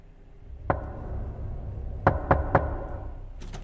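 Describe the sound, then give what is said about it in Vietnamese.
Knocks land on a wooden door at night over a low, steady background rush: one sharp rap, then a quick run of three, then a few more at the very end. “Lúc này, ở bên ngoài cửa, lẫn trong tiếng gió thổi cứ vù vù vi vút trong đêm, thì vang lên có tiếng gõ cửa.”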